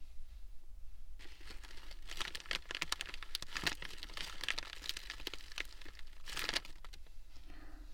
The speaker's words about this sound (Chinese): 现在把包装袋撕开